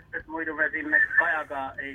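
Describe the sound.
A radio plays loudly behind a caller on a phone line, a continuous stream of voice-like sound with sustained tones that stays loud for about two seconds.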